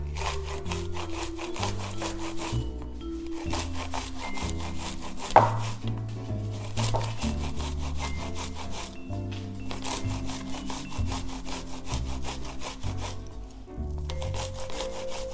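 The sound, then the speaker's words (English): Sweet corn grated on a box grater: steady, rhythmic rasping strokes repeat throughout over background music with a clear bass line. “All right, so I have a box grater. I'm gonna grate this sweet corn using the box grater.”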